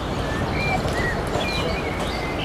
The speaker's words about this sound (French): dans cette petite capsule sonore. Des oiseaux, un coucou, la mer, un bateau au loin, des gens qui se baladent.